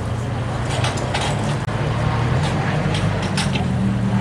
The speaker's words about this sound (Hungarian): Még csak ez a versenypálya háttérzaj.